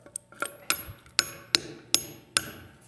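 A hammer drives an anchor bolt through a 2x4 in seven sharp, ringing metallic blows at a fairly even pace, with faint rattles between strikes.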